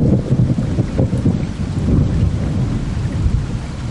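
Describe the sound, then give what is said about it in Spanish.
A sudden thunderstorm with heavy rain and thunder: a continuous loud roar of rain over a deep, rolling low rumble, with no voices. “De repente se largó a llover.”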